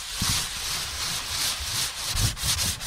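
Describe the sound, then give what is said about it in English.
A piece of pumice sands a rough, freshly shaved animal skin surface, making a gritty, rasping scrape in repeated back-and-forth strokes that swell and fade unevenly. “All right, so here I have a piece of pumice. I'm going to try to sand the skin surface after the shaving process because the surface of the skin now is pretty rough.”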